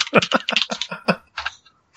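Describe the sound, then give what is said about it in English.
Computer keyboard typing hammered deliberately loud, with many rapid, irregular clacking keystrokes, then a short pause before another burst. “I'm trying to type as loud as possible for effect.”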